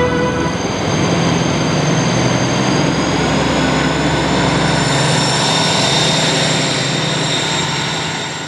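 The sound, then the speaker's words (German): Train passing with a loud, continuous rumble and a steady high-pitched whine from the wheels and rails. The sound holds evenly for several seconds, then eases slightly at the end. No voices. “Die Bahn kommt.”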